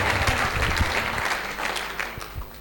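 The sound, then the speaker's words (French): Applause from an audience acclaiming the Lord during a church gathering: dense, steady clapping that starts loud and gradually thins and softens toward the end. “On acclame le Seigneur pour la lecture.”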